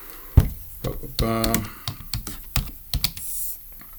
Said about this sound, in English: Let me type this in.